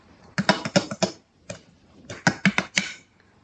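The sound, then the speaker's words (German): Two drinking straws drumming on an expensive table, sharp light taps in two quick bursts of about five or six hits each, with a single tap between them. “und trommelt hier auf meinen wahnsinnig teuren Tisch rum.”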